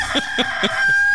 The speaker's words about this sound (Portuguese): Olha o galo cantando aí, meu filho. Aqui tem um galo também nosso aqui, o galo.